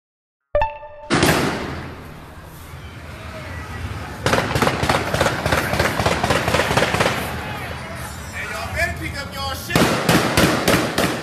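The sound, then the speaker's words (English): Gunfire aimed at a bank ATM during a night of looting in a neighborhood, many sharp cracks fired in rapid, uneven bursts, some loud and clustered, continuing throughout. “You hear them shooting at the ATM machine?”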